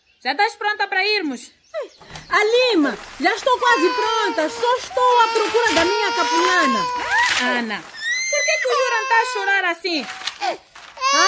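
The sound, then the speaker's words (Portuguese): An infant cries hard in a series of high, wavering wails, each broken by short gasps for breath, with a brief louder burst near the end. “Chora muito. Mas será que ele tem fome?”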